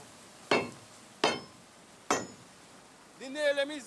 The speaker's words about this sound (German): Die Nägel sind lose. Ich schlage sie wieder ein.